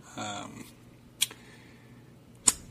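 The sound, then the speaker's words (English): Lip smacking by a man: two short, wet, sharp smacks spaced about a second apart, following brief speech. “My wife yelled at me for doing that on the show. Smack my lips. I got juicy lips, what can I say?”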